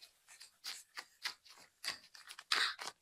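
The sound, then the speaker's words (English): Tarot cards being handled: a quick, irregular series of soft, crisp taps, flicks and rustles, quiet and close, with no voices. “Time for the card ASMR.”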